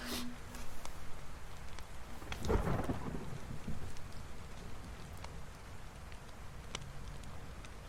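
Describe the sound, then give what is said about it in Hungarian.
A thunderstorm with steady rain: continuous rain patter and hiss, broken by one deep thunder rumble that swells early and then fades back into the downpour. “És most már véget érhetne ez a vihar.”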